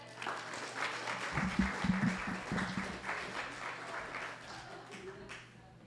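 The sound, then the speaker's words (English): An audience warmly applauds to welcome a visiting doctor to a talk in Harrisburg. Loud, steady clapping runs throughout, a voice briefly rises over it, and the applause fades away toward the end. “So without further ado, please join me in giving her a warm Harrisburg welcome.”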